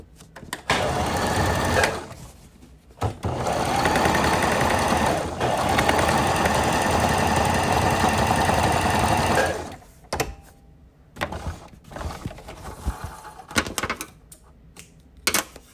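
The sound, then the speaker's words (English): A sewing machine stitches two rectangular fabric pieces together for a patchwork bag, with short runs at first, then a long steady whirring run, then a few brief stop-start bursts of needle clatter. “Okay, I just finished sewing both rectangular pieces back together”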